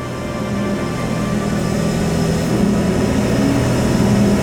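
A fast-moving freight lift gives a steady, loud mechanical drone, a constant low rumbling hum that holds even throughout with no voices.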